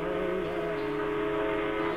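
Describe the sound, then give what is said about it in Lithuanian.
Train whistle signal sounding as a steady, sustained multi-tone blast that holds unbroken and at even loudness for the whole clip. “Žmogaus sukurti garsai, kaip morzės abecelė traukinio signalas.”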